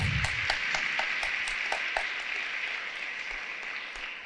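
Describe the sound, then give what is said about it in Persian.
An audience at a talk on family life applauds: sharp, distinct claps stand out at first, then the clapping thins and fades toward the end. “اگه دوست داشتین برایش دست بزنید. حالا به افتخار خودتون.”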